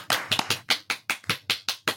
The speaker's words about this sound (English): A big round of applause for Dr. Christine